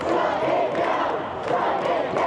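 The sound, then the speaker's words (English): Pro-Palestine protesters chant just outside Columbia University, a loud massed roar of voices that holds steady with only a brief dip in the middle. “A growing crowd chanted in support of their cause just outside Columbia University.”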